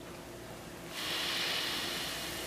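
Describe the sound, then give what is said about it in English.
A slow, deep breath in and out: a soft, airy hiss that swells in after about a second and holds steady, with no talking. “if you just take a, uh, a, deep breath for me now, slow and easy, and then let it all out.”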